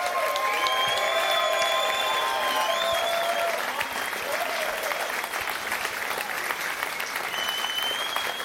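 Audience applause for the trombone player of a band at a concert in Bremen: a steady, sustained wash of clapping from a crowd, with some cheering, holding an even level throughout.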